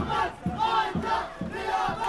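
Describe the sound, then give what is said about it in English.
A crowd erupts in celebration as rebels return to base, with many voices raising rhythmic, chant-like shouts in repeated bursts about every half second. “But hours later, we get word that the rebels have taken Salakin and are heading back to base. People erupt in celebration.”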